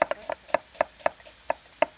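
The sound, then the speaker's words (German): A knife cuts a sweet onion on a board outdoors: a few sharp, crisp chops come at a slightly irregular pace, each a short woody knock with quiet gaps between. “Eine Gemüsezwiebel, eine klassische. So eine richtig, da leidet man halt ein bisschen beim eine Schneiden.”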